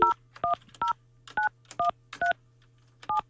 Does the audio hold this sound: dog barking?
no